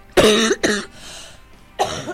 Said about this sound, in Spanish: Ay, perdón, chicos. Mirá, ahora me tengo un ataque de tos.